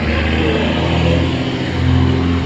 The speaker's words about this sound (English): whenever I turn this thing on, there's always some truck, loud diesel truck, without fail.